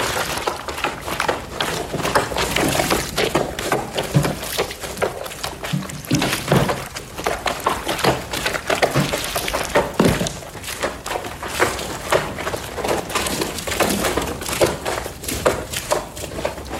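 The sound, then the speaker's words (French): Constant wet splashing and thumping as feet trample dirty blankets in washtubs to wash them, a sound recreated for a film. Dense, irregular sloshes and soft thuds run continuously at an even level, with no voices. “et ils sont en train de laver des couvertures et de les piétiner pour bien les laver. Alors, il y a des bassines.”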